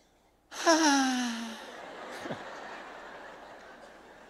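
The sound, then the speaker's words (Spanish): A voice imitates someone groaning as they breathe, giving a moaning groan that slides down in pitch, then trails into a long, breathy exhale. “¿Nunca vieron gente que se queja cuando respira? ¿Vieron que hay gente que hace?”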